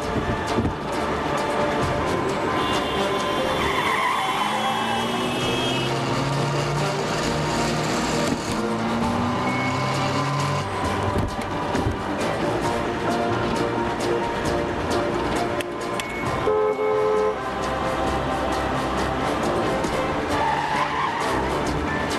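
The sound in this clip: Car accelerating hard with tyres skidding and squealing, a loud, dense, continuous roar of engine and tyre noise that runs through the whole clip without a break.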